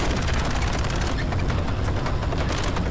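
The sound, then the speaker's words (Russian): Soldiers in battle fire their guns at advancing infantry, a dense, loud, unbroken barrage of overlapping shots and bursts with no pause. “Поднявшись, бойцы расстреливают пехоту.”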